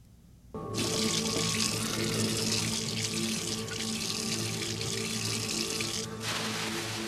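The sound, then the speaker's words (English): A water tap runs in a steady, hissing stream as hands are washed for Muslim ritual cleansing before prayer in a garage. The flow starts suddenly, stays even for several seconds, then cuts off abruptly. “he washes his hands in the way Muslims do before prayer, ritual cleansing, and he kneels and he prays. We have that sound.”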